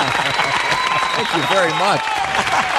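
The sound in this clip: Applause rolls through the whole clip as a steady, dense patter of clapping, with a voice speaking over it.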